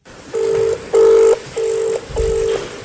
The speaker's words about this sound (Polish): Niestety, szanowni państwo, nikt nie podnosi telefonu.